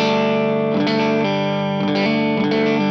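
An electric guitar plays through an overdrive pedal pushed hard by a boost stage, giving thick, saturated distorted chords that ring and sustain and change a few times.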